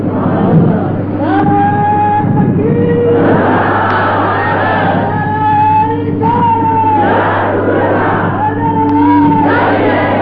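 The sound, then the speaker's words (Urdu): Loud crowd at a religious gathering shouting slogans, with massed voices rising in repeated bursts of strong collective shouts that stay steady throughout. “نعرے آپ لوگوں نے بہت لگا لیے، اب نعرے نہ لگائیں، تھوڑی دیر گفتگو سنیں۔”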